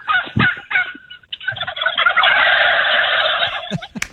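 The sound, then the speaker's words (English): Birds call noisily in gobbling, fowl-like voices. A few separate loud calls come first, then from about 1.5 seconds a dense, steady chorus of overlapping squawks runs on, with a couple of sharp calls near the end. “I hear the birds in the background.”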